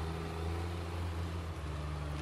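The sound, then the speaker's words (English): Engine of a skidder logging tractor backing up toward a downed tree, a steady, loud, low droning rumble that holds constant throughout with no talk. “a skidder, operated by Cook's nephew, backs up toward the downed tree. He'll turn around and back right up to it, and he'll hook a chain choker around to it, pull it up in with his winch.”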